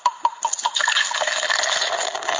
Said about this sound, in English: Pouring the wine. Pouring wine.